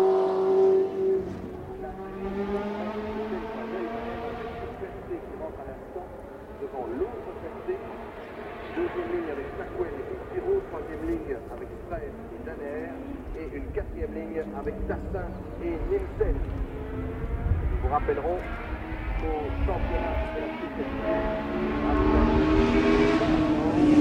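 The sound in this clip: A Formula 1 race car downshifting, its engine note a dense run of harmonic tones that slide up and down in pitch over a long, continuous stretch.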